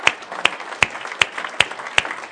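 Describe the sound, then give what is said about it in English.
Clapping from an audience honouring standing mothers at a gathering: seven sharp claps in an even, steady rhythm over a soft wash of background noise. “we'll give you a round of applause here”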